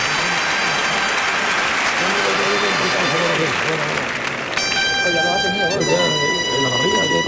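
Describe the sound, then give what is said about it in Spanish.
A bullring crowd at a bullfight in the Real Maestranza applauds in an ovation for the matador. The dense, steady roar of clapping runs throughout, with a man's voice talking over it the whole time. “Y la ovación para Manuel Escribano.”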